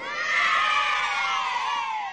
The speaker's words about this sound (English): Where do you find these sound effects? Well, that particular one is from Halo 3. It's a skull you can get that you can,